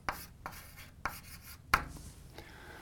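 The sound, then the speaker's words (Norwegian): A pen writes out a math equation, with quiet scratchy strokes across paper broken by several sharper taps as the pen meets the page, and no voices. “Skriv opp det først.”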